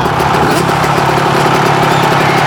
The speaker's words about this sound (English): Now, who wants to see me pop a wheelie over this shark tank?